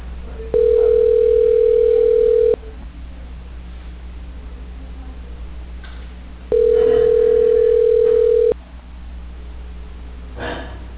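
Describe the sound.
Ringback tone while placing a phone call: two steady, mid-pitched tones, each about two seconds long, separated by a long pause over faint line hiss.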